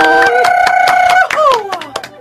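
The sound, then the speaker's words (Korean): Audience clapping to welcome a missionary worship singer at a church gathering, sharp, regularly spaced claps over a sustained tone that drops away, then a few scattered claps as it fades. “송재은 선교사님 박수 모시겠습니다.”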